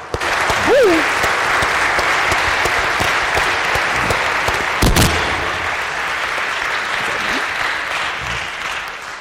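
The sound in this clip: An audience claps steadily to welcome a guest speaker. The dense, loud applause lasts for the whole clip and tapers off slightly toward the end.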